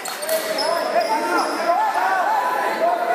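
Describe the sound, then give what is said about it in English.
At a basketball game, a ball bounces amid steady crowd chatter, with voices talking throughout over the continuous hubbub. “Welcome to a basketball game.”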